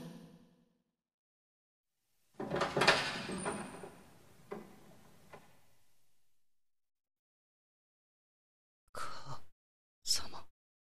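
A door opens with a broad, grinding sweep that fades away slowly, followed several seconds later by two brief, sharp clunks; the sounds are faint overall.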